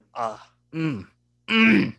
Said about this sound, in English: That's a negative groan. That is not a good groan. That's a negative groan. That is a bad groan.